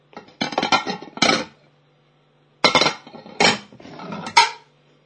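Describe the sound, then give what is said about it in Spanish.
Plates, pots and cutlery clink and clatter as dishes are washed, in several sharp bursts of clattering split into two groups by a short pause, with no talk. “A fregar los platos.”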